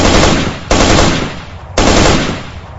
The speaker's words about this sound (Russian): я без паузы шарахнул 3 короткими очередями